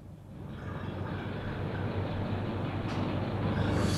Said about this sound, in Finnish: No kato, tästä otat pari venttiiliä auki. Tää sinirattinen ensin. Niin. No sitten tää punainen. Näin. Ja katso, pumppu lähtee käyntiin.